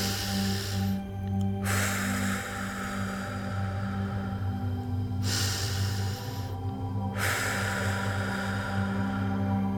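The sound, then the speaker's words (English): Breathing in through the nose and exhaling out through the mouth in an active breathwork exercise: a few loud, airy, rushing breaths repeat in a steady rhythm over a faint low hum. “we are going to be doing a halo active breath today, which is breathing in through the nose and then exhaling out from the mouth. And so it sounds like this.”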